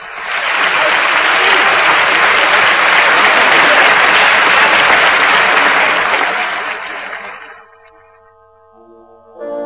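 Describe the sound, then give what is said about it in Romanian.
An audience gives loud, sustained applause, a dense roar of clapping that holds steady for several seconds, then fades out into near silence. “Ce triumf, ce triumf, ce deliru! Vieni, vieni, îți aclamă publicul!”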